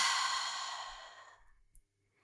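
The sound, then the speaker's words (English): A slow, deep breath is let out through the mouth during a guided breathing exercise. The long, breathy whoosh starts loud and fades to nothing over about a second and a half, followed by a faint click. “take one deep breath in through the nose and out through the mouth”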